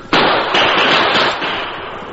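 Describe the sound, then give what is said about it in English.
Gunshots fired over a stampeding cattle herd: a sharp blast opens a dense, continuous roar, with a few further bursts swelling through it at intervals. “Shoot over the herd. Gotta get them back on the trail.”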